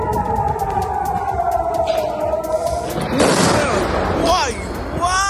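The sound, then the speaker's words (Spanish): Iranian missiles with cluster warheads burst over Tel Aviv: a low wailing tone, then from about midway a loud surge of crackling, rumbling blasts, with voices. “Esto que acabas de escuchar es el tipo de armas que utiliza el régimen iraní. Se trata de misiles que llevan ojivas de racimo, diseñadas para abrirse antes de caer y dispersar proyectiles”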